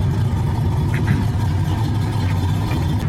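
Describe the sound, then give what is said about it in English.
A car driving down the road, with a continuous low engine and road rumble at a steady, fairly loud level and no voices. “As I drive down the road, pick up some boys.”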